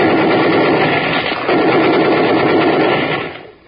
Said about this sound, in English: with a machine gun. Yes, a difficult shot.